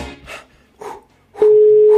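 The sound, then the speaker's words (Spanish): A telephone line tone, sounded when a call is placed, comes in as a steady, unbroken mid-pitched hum after a few short, soft sounds and holds alone to the end. “Está sonando el teléfono, atendelo.”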